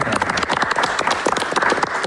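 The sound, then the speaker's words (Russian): Applause from an audience: dense, overlapping hand claps that stay fairly loud and steady for the whole stretch. “Больно рукам, но аплодируем.”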